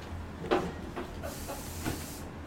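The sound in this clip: Hiss and fizz of a freshly opened can of beer from a Beaumont, Texas brewery spewing foam, heard as a few soft, breathy bursts of sputtering spray over a low, steady background.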